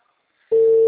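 A telephone ringing tone plays on an outgoing call. After a brief near-silence, one steady mid-pitched tone starts abruptly and holds loud and unbroken to the end.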